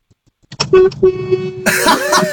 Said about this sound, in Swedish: Jag kör lastbil. Okej, okay, då får du tuta.